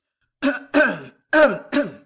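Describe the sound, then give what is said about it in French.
A man clears his throat in four short, rough, gravelly bursts with brief pauses between them, heard alone without any talk. “se racle la gorge”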